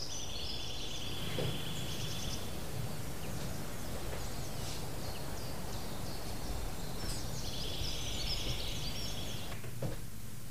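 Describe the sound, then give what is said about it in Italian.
Birdsong and nature sounds closing a long, free-spirited song: high, bright chirps come in two clusters, near the start and again later, over a steady, hissing natural background that runs throughout. “finire questo lungo brano tra uccellini e suoni della natura”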